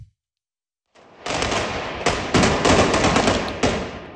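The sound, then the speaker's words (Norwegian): Bolivian police fire tear gas at fleeing demonstrators in La Paz: a few sharp, loud bangs burst out over a dense, continuous roar of noise after a brief silent start. “Her hører vi boliviansk politi som skyter tåregass mot demonstranter som legger på sprang i hovedstaden La Paz.”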